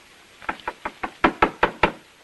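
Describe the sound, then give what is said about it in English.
Knocking on a bedroom door: eight sharp raps in an uneven rhythm, the first four softer and the last four noticeably louder, with no voices. “Andrews knocks on a bedroom door”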